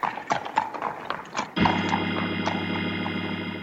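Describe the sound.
Horse hooves clip-clop as horses pull a wagon, with several quick, irregular clops at first, then a steady droning tone takes over and holds to the end.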